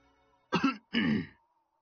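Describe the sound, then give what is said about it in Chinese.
A man clears his throat with a cough in two short, gruff bursts, the second slightly longer, with silence around them. “便学着主人的模样，将手反在背后咳嗽一声训斥道”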